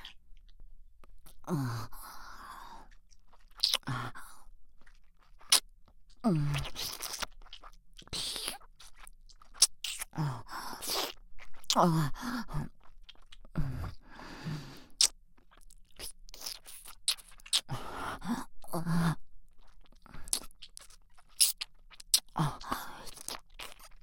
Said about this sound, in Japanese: すみません、耳なめします。